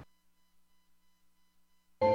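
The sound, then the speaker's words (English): A telephone number is dialed: a rapid, even series of faint electronic beeps repeats steadily, and then a voice cuts in abruptly. “I'm going to dial the number and call.”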